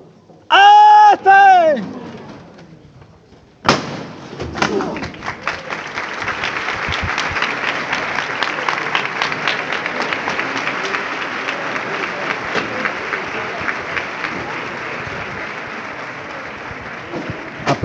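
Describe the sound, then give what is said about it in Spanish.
Crowd applause outside and inside a church as a Palm Sunday procession in Jaén waits to leave the temple. A brief loud vocal call comes first, then dense, sustained clapping continues to the end. “aplausos fuera de la, de la iglesia, aplausos dentro de la iglesia, de todo el cortejo que está esperando para salir.”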